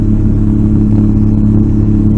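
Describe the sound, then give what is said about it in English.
A ferry engine running on a crossing in the Indian Ocean in the Maldives, a loud, steady, low-pitched drone with a rough mechanical rattle and no talk over it. “I'm currently sat on a ferry in the Indian Ocean. I'm in the Maldives right now.”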